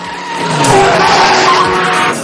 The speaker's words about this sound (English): Cars skid to avoid him as he pulls a skillful U-turn on the beach road and weaves away through traffic.